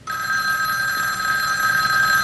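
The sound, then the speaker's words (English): A telephone bell rings loudly and without a break, a bright, steady metallic trill that carries through the whole moment with no one talking over it. “There's the phone.”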